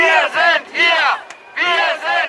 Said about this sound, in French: Résistance, résistance, Merkel doit partir. Les slogans bien connus de rassemblements anti-réfugiés et d'extrême droite sont repris par la foule.